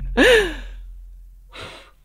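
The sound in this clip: Breath blowing out birthday candles: a sharp, voiced breathy burst, then a second softer, airy puff after a pause, both fairly faint and alone.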